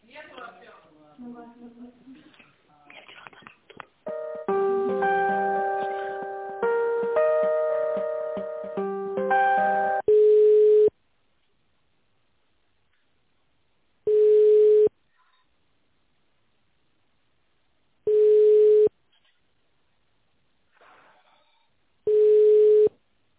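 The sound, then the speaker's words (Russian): A telephone line tone plays while an office call is transferred: a voice speaks briefly, a short melodic tone sequence follows, then four long, even beeps repeat at steady intervals with silence between them. “Так, сейчас, секундочку, я переключу.”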